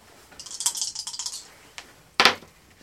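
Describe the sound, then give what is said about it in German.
Dice are rolled to decide who starts a game: a quick run of light, clattering clicks, then a single tap and one sharper, louder knock, with no talking. “Das möchte ich jetzt würfeln.”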